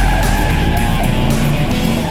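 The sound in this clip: Tires screech as a car drives off, a steady loud squeal with engine roar running without a break for about two seconds and no voices.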